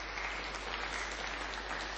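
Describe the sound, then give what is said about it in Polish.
Applause from a crowd welcoming parish delegations at a church gathering: dense, even clapping that holds steady throughout, with no talk over it. “także brawa dla nich”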